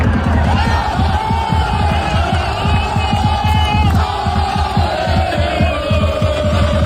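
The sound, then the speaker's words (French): French football fans gathered in Times Square, New York, cheer and shout before France's first match. The dense crowd roar stays loud and unbroken throughout, with scattered whoops and bellows rising above it. “Et forcément, les Français rassemblés à Times Square, ça fait un peu de bruit.”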